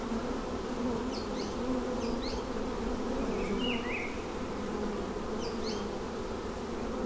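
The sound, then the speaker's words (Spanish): Bees buzz in scrubland beside a dry riverbed, a dense, continuous droning hum at steady loudness, with a few faint, high chirps flickering above it. “Al concierto se suman las frecuencias de abejas”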